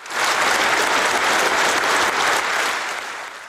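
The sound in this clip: Applause from government members and parliament deputies congratulating the new president after his oath of office: dense, sustained clapping from a crowd, steady and loud throughout before easing slightly toward the end.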